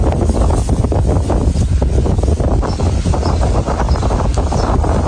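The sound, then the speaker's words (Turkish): Strong windstorm wind roars through a city, the kind of gale that tears roofs loose and topples trees. A loud, constant low rumble buffets the microphone without pause, with only slight swells in force. “Uşak'ta etkisini artıran kuvvetli fırtına kent genelinde yaşamı olumsuz etkiledi. Şiddetli rüzgar nedeniyle birçok noktada çatı uçmaları yaşanırken”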